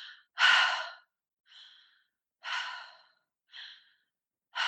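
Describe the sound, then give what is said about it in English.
Deliberate circular breathing, air let fall out of the mouth without pushing: a slow, even series of soft breathy whooshes alternating stronger and weaker, about five in under five seconds, with no speech. “And I create a circular breath pattern. So it'll sound a little like this since we're on radio.”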